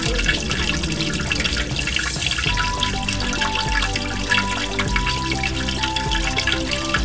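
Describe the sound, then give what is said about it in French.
A long, steady stream of flowing water, splashing and trickling continuously at an even level throughout. “À ce moment précis, Lilo sort de sa bouche une longue coulée d'eau.”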